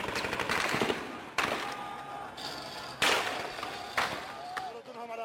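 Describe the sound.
Gunfire from army snipers on rooftops during the siege of a city: a few sharp, loud cracks amid dense, noisy energy, with a voice talking over them.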